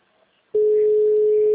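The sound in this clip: Telephone ringback tone heard while waiting for a customer to answer a call: a single steady, mid-pitched tone lasting about one second, sounding alone against a quiet background.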